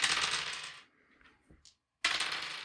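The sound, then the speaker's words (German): Dice are rolled, giving a bright rattling clatter that fades out, then a few faint small knocks and a short silence before a second loud rattle begins. “also ich würfel jetzt hier vielleicht ein paar, also es kann sein, ich ein paar Mal würfel, damit ich halt eine Zahl zwischen 1 und, was hatten wir, 21, 22 erwische”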